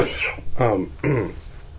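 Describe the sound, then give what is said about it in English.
Harsh coughs from a person who pauses mid-conversation, a few loud, rough bursts in quick succession with no talk over them. “pardon me, I'm going to cough.”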